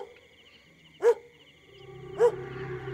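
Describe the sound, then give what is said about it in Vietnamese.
Two separate barks from a neighbour's dog at night, spaced about a second apart. Each bark is short and sharp, heard over a faint, steady background hum. “Tự nhiên con chó hàng xóm nó sủa lên từng tiếng một, lâu lâu lại trú lên đến rợn người.”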